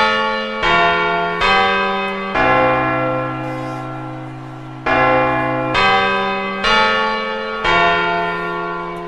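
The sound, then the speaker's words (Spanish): A carillon chimes the quarters before the New Year's Eve bells, ringing two four-note phrases of loud, sustained bell tones that overlap and decay, with a longer held note at the close of the first phrase. “¡Van a llegar el momento a las campanadas! ¡El carrillón, el carrillón! ¡Ahora los cuartos!”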